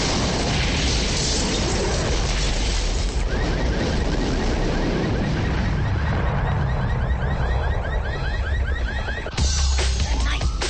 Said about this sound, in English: and push the door open. It rolls inside the room. The hotel explodes.